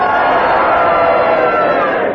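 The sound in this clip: A studio audience on a game show lets out a loud, sustained collective roar, many voices shouting together at an even level throughout without a break.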